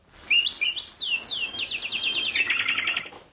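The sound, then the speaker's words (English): Birdsong in a spring backyard, a singing bird joined by its mate: bright whistled phrases that swoop up and down, followed by a rapid, even trill, clear and alone. “And out in the backyard, a bird in song is joined by its mate.”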